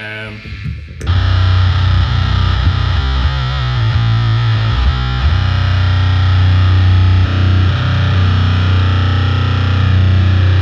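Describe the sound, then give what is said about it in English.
Electric guitar run through fuzz and HM2 distortion pedals: a brief quieter start, then loud, heavily saturated chords that hold and drone with a thick, buzzing low end. “the first thing I would hit is the fuzz. Then for the insane pedal would be the HM2.”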